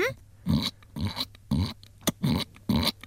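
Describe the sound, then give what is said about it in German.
A human voice imitates a piglet, with about six short nasal squeals and grunts in an uneven rhythm, separated by brief pauses. “Kannst du einen Ferkel nachmachen?”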